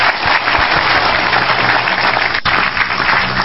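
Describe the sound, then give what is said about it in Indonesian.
Steady audience applause: thick, continuous clapping at a constant loudness for several seconds, slightly dull in tone, with no voices standing out. “tepuk tangan untuk Mas Silo”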